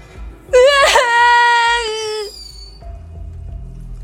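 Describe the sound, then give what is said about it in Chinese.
A child crying, a single loud, sustained high wail that holds for over a second and then trails off, followed by a quieter low rumble. “小四子看着眼前明晃晃的匕首，终于一扬脸哭了起来。”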